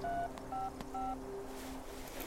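Three telephone keypad tones dialing 911, each a short steady dual-pitched beep with a brief pause between, over a low background hum.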